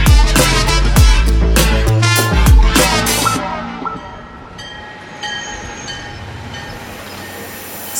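A long, steady train whistle sounds at a station over rumbling rail noise, following a stretch of music.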